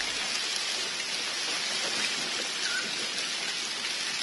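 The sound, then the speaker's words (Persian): Heavy rain pours down during a sudden storm over forest and mountains, a dense, unbroken hiss that holds at an even level with no voices. “باران شدیدی میباره.”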